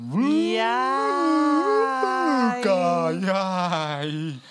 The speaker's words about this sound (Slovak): chcem vám povedať, že zvuk, ktorý ste počuli, je hlas vlka.